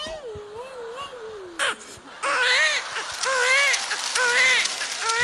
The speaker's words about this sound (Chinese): 这小孩嗓子都哭哑了，别哭。